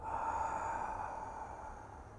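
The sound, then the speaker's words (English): A slow, soft exhaling breath during meditation, drawn from the belly at a natural pace; one long, faint, airy exhale that carries on alone and gently tapers toward its end. “See, I exhale, that's all, and I follow the exhalation.”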